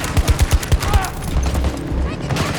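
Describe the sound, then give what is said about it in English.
Gunfire with tracers in a video game: rapid bursts of sharp shots crack out in quick succession, then the firing continues in a busier, less distinct stretch. “He shot me through the bush. Through the cave place. What the fuck? I could not see him. I could see his tracer fire coming through the bush.”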